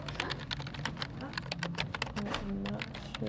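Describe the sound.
Rapid typing on a computer keyboard as a nurse writes up observations after giving care: many quick, irregular clicks and taps, with a voice faintly audible underneath.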